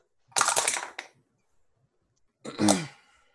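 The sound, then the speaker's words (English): Dice roll and clatter across a computer keyboard during a tabletop role-playing game: two short, rattling bursts separated by a quiet pause. “I have to re-roll it because it went on my keyboard. But I rolled a natural 20.”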